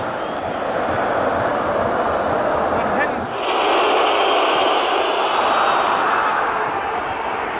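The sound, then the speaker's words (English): A football crowd boos as Russia takes a penalty in a match involving Denmark. The roar is loud, dense and sustained, dipping briefly near the middle before swelling again. “So what you just heard there was the crowd booing as Russia took a penalty.”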